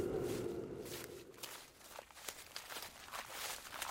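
Soft footsteps lead out of a small museum onto a narrow trail winding uphill through conifer forest over gnarled roots. The steps are quiet and irregular and stay faint throughout.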